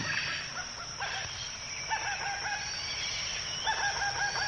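A bird calls close to the microphone in a few repeated harmonic phrases, clear and fairly loud, over a dense, hissing chorus of background sound.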